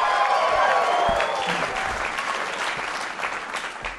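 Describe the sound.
Comedy club audience applause: loud, dense clapping with a few whistles early on, gradually tapering off over about four seconds.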